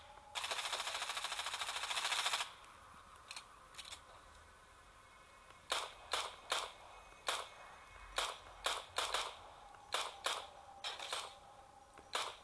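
Gunfire in a survival shooter video game aimed at a llama, opening with a sustained burst of rapid automatic fire, then many separate sharp shots at an uneven pace, all loud and with no talk over them.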